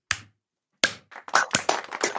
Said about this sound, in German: Zumindest ein kleiner Applaus für mich, den gebe ich mir selber.